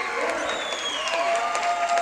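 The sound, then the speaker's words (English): Crowd applause and cheering fill the Thayer High School gym after a high school basketball win, the Thayer Bobcats over the Willow Springs Bears. A steady, dense wash of clapping runs throughout beneath a man's voice talking over it. “Big crowd on their feet applauding this Thayer Bobcat effort.”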